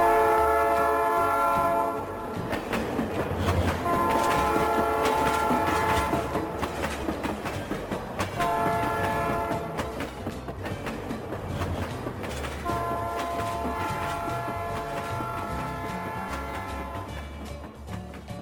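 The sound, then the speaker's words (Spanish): A train bound for Lewiston, carrying a mail car, departs with a loud, continuous rumble and rail clatter. Repeated horn or whistle blasts sound over it, and the noise eases slightly toward the end. “el tren parte con destino a Lewiston.”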